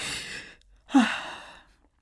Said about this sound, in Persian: نفس عمیق می کشد و ادامه می دهد.